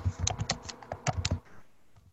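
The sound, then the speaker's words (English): Typing a Google search on a computer keyboard: a quick run of many light, crisp key clicks in an uneven rhythm, faint and alone, thinning out toward the end. “This is good radio while you type in Google stuff.”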